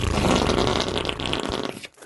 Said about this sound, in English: farts are very funny. They're so funny.